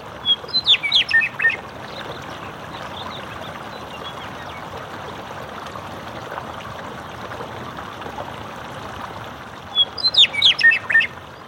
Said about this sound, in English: there was a meadowlark who flew in and just perched very close to me in the microphone and just sang his heart out.